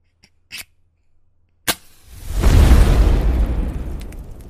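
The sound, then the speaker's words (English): A fire being lit: a few small ticks and a sharp snap, then a low, rumbling whoosh as the flame catches, swelling quickly and holding as a steady roar. “It gets a little chilly here this time of year in the upper Midwest, but don't worry because I'm about to light the fire.”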